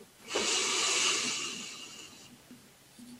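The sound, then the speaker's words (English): A single deep, steady breath taken during a guided relaxation exercise, a soft airy hiss that swells quickly and fades slowly over about two seconds, with no talking. “close your eyes, take in a deep breath in and releasing another deep breath in”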